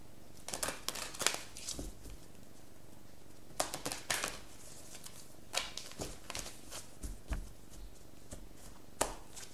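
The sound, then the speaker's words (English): Cards being drawn from a numerology card deck, with many quick, crisp riffling and flicking bursts in irregular clusters, fairly quiet throughout. “All right, let me get one of the cards from the numerology deck, Pisces.”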